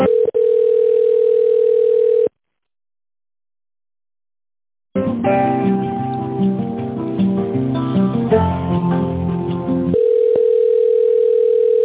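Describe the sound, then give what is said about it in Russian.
A telephone tone plays while a call to a pharmacy chain's help line is transferred to an operator: a steady continuous tone cuts out into silence, melodic hold music follows, then the steady tone resumes. “Ваш звонок переводится на оператора.”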